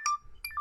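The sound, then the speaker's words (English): A video call ringtone chimes on a phone: a short melodic run of bright electronic notes, one at the start and then a quick cluster of several more, clear and fairly loud against a quiet background. “Did you just video call me? Yeah, I turned on the video. Oh, okay, nice. So that's just what that noise was.”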